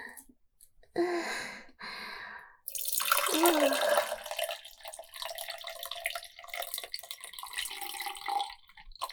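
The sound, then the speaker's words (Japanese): Tea is poured into a third cup, a steady trickle and splash of liquid lasting several seconds, with soft breathing and a few faint drips around it. “この音だねーです。3杯目の紅茶です。3杯目でラストかな。”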